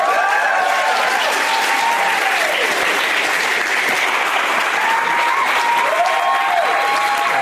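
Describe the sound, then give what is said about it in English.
Audience applause welcoming three guests on stage: loud, dense clapping holds steady throughout, with a few whistles and cheers rising above it. “Please give a big, warm welcome to Nick Thune, Zach Galifianakis, and Tom Lennon.”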